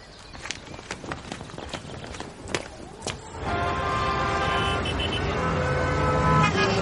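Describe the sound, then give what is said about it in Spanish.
City street traffic on a busy street as a man walks with a briefcase: faint clicking steps at first, then a dense, steady roar of vehicles with tonal, horn-like notes running through it. “Entre tanto, en la ciudad, Sammy camina por una concurrida calle portando su maletín.”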